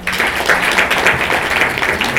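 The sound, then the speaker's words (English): An audience claps at the close of a panel meeting on parliamentary matters. The clapping is brisk and vigorous, with individual claps audible within the steady, fairly loud burst. “Another big clap.”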